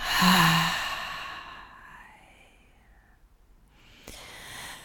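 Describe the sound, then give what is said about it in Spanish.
A deep breath during a guided breathing meditation, in through the nose and out through the mouth: one full, airy exhale that is loudest at the start and then trails off into soft breathing. “vamos a inhalar profundo por nuestra nariz exhalamos por nuestra boca.”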